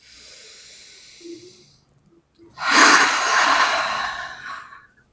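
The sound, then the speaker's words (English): A deep breath: a soft, airy breath lasts about two seconds, then after a short pause a louder, longer rush of breath swells and slowly fades, with no talking. “Deep breath.”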